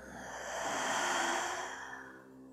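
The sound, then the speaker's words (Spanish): A deep breath drawn in through the nose and released through the mouth during a relaxation exercise, heard as one soft, airy rush that swells and then fades, with no talk. “Inhala profundo por tu nariz. Y por tu boca exhala soltando.”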